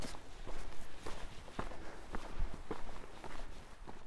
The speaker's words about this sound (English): Walking along a path, see a little mud track up to the left.